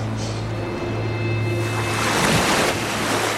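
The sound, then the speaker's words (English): Ocean waves wash and splash against wet, jagged rocks in a steady, loud roar of surf, with a stronger surge of water partway through and no voices. “Waves splash.”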